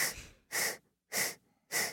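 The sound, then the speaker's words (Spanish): Slow yoga breathing in a four-count exercise, with four soft, airy breaths that hiss evenly and alternate inhale and exhale. Each is separated by a short silence, and all are quiet and without talk. “Inhala en cuatro. Exhala en cuatro. Inhala en cuatro. Exhala en cuatro.”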